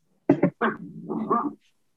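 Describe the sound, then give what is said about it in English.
A pet dog vocalizes on its own: two quick, sharp yips, then a longer grumbling, whining sound that rises and falls before cutting off. “Oh, sorry. That's my dog.”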